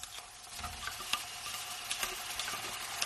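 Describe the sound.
Food frying in a restaurant makes a steady, bright sizzling hiss dotted with tiny crackles and pops, continuous and fairly quiet, with no voices.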